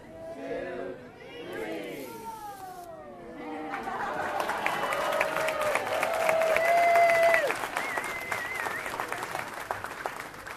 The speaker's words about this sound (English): As the kids clamor for Mickey's attention, we'll slip around the crowd and into the exhibit.